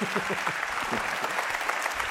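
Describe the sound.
Sustained audience applause welcoming a speaker at a Hope for Kids gathering on Thanksgiving weekend: a dense, steady clatter of many hands clapping throughout, with a faint voice beneath it at the start.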